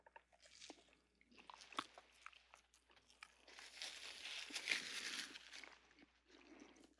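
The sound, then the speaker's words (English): Someone bites into a Cavendish supermarket banana and chews: soft, moist squishes and small crunchy bursts, quiet and irregular, growing busier midway and then easing off. “we started with today's banana, the Cavendish. This is the one you buy at your local supermarket, and exciting it is not. Okay, so we're going to take a bite.”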